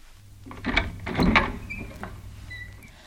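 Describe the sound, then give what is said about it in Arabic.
A door opens in a dramatized story, heard as a single grinding, scraping swell lasting about a second, moderately loud, then fading into a quiet background. “افتحي الباب يا خديجة، فإني محمد.”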